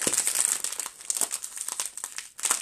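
Crinkling of an Italian red meat flavoured crisp packet: bright, crackly plastic rustles come in quick irregular bursts for the whole moment, loud and with no voices.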